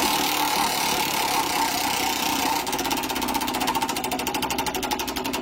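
A prize wheel spins with rapid, steady clicking that starts partway through and keeps going to the end, set against a constant, loud bed of noise.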